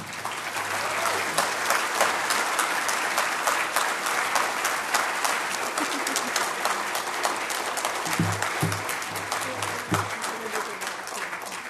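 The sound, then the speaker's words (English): Standing ovation applause from an audience for two young women after their remarks, a dense, steady clapping that stays loud and even throughout. “For the radio audience, these two young women just received a standing ovation, well-deserved.”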